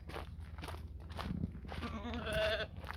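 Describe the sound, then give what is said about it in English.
Market lambs on a hobby farm give a few bleats, the loudest and clearest one near the end, over shuffling and rustling movement. “These are the actual market lambs that we're going to be selling. So we've got six of them here.”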